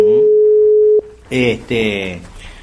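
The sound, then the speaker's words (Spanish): A steady single-pitch telephone line tone holds for about a second while a radio station is being called, then cuts off and a voice starts speaking. “Nos va a atender de Radio Caster, lo estamos llamando al amigo,”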